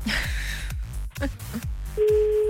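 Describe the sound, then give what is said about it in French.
A phone call is placed during a radio prank call: after a stretch of music, a steady, even telephone line tone starts near the end and holds. “On appelle je ne sais où, mais en tout cas on appelle, c'est le principal.”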